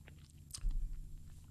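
A quick sip of a drink: one short, soft slurp and gulp near the middle, fairly faint, with no talk.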